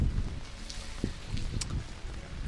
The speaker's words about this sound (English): Look at this beautiful rain. Oh. Beautiful wind, too.